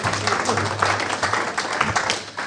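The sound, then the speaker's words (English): A Baptist church audience gives a round of applause, a busy patter of many hands with uneven bursts, while voices are heard beneath and alongside the clapping. “Right, give a round of applause.”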